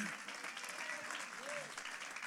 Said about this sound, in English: clap your hands if you believe that right now.